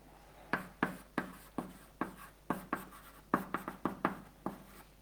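Writing on a board during a lecture: many sharp, quiet strokes and taps in an uneven rhythm, with a quick cluster of marks near the end and no talk.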